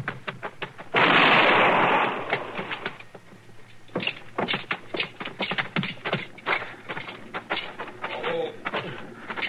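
A single pistol shot in a Western drama: a loud, sharp blast with a short trailing decay, followed by a stretch of quieter clattering movement.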